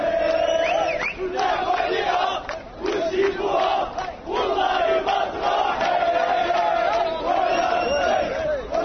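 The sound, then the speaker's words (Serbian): A group of Moroccan football fans chants in a city centre in Qatar before the start of the World Cup: loud, rhythmic massed voices in repeated phrases, with short dips between bursts of chanting. “Uživaju slave uoči početka mundijala u Kataru. Ovo što sada čujete, jedna grupica navijača iz Maroka.”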